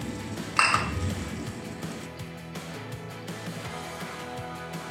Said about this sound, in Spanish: Así estoy revolviendo la espinaca para ahorita echarle los huevos.